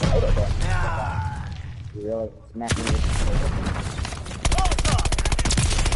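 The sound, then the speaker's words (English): Video game grenade explosion and gunfire: a sudden broad blast, then loud, rapid bursts of shots that grow denser toward the end, with voices shouting over parts of it. “Throwing grenade!”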